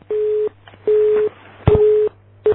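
A telephone busy signal follows a hung-up call: a steady tone pulses in even on-off beeps, three full beeps and a fourth cut short, with a sharp click at the start of the third.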